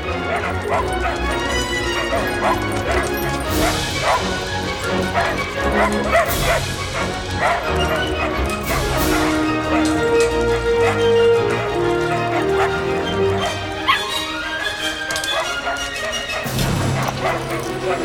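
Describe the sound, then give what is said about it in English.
Dogs and puppies barking and yipping as they race across metal beams onto a landing: many overlapping high yips, barks and whimpers, continuous and busy, heard under a speaking voice. “the dogs race across metal beams and onto a landing. Puppies mill around on the second lower landing.”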